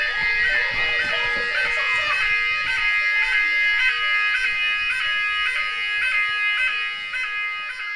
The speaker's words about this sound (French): je vais faire sonner l'alarme. Ah! Voilà. Donc ça va durer 5 minutes